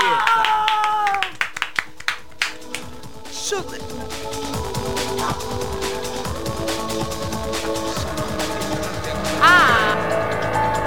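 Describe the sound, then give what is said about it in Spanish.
A group applauds together at a festive gathering. A few sharp, separate claps come first, then they build into steady clapping mixed with voices and other busy sound throughout. “Podríamos aplaudir todos juntos ahora.”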